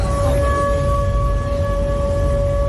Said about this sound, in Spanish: Este es el sonido de las sirenas antiaéreas esta noche en Krasnodar, donde varios drones ucranianos han sobrevolado la ciudad